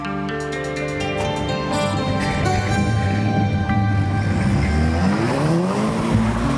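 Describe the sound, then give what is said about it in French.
Cars race around the motor racing circuit at Abbeville, France, their engines roaring in a loud, continuous, dense drone. High tire squeal runs over the engines the whole time. “Ça existe un peu partout, chaque week-end en France, comme ici, sur le circuit automobile d'Abbeville. Ça sent le goudron et le pneu brûlé.”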